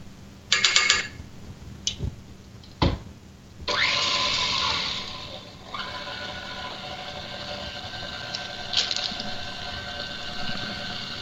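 An electric mixer works cookie dough made with flour and pumpkin. A few sharp clatters come first, then a steady motor whir with a rattling edge runs on to the end, shifting slightly in level. No one speaks.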